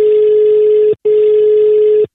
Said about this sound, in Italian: Andiamo subito al telefono